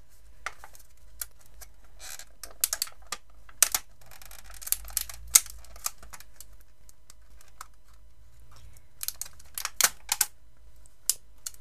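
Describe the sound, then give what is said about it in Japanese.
Crinkly clicks and rustles from a plastic package of mitarashi dango rice dumplings being opened. Many brief, sharp taps come in irregular clusters, fairly faint over a low steady hum, with no talking. “今からお団子を食べます。開封します。”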